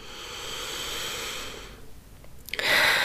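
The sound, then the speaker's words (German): A deep breath in during a guided breathing meditation: a long, steady, airy inhale of nearly two seconds, then a brief quieter lull before another louder rush of breath at the end, with no talking. “Und noch drei tiefe Atemzüge hier. Zweiter Atemzug tief ein.”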